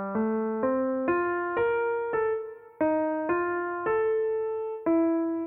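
Viola playing its part in a string quartet arrangement: a series of smooth, bowed notes in the mid-low range, each one sustained and moving stepwise into the next, played alone at an even, moderate loudness.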